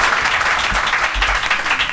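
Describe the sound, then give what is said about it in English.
Audience applause answering a call to vote by clapping, a dense, even wash of many hands that holds steady and fairly loud for the whole stretch, with no voices standing out. “please applaud now”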